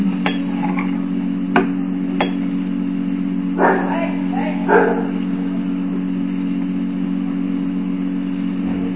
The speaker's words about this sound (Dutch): De hond. Dat is de hond.